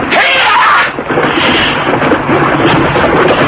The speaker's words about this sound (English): And there were guns at the gate, but they missed.